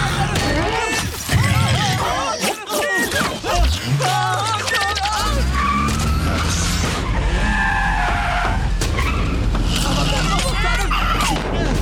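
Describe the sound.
Tyres squeal and skid as a hot-wired car is driven off, with an engine rising in pitch as it revs, and loud, continuous rough noise throughout.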